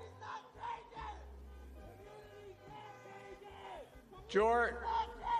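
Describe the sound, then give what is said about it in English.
A crowd yells and chants during a political speech, with rough rhythmic shouting that swells into a louder burst of cheering near the end. “I can't hear what they're yelling.”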